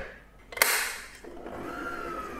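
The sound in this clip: An electric mixer runs at slow speed, blending gula melaka cake dough with flour in a steady whirring drone, with a brief clattering burst near the start.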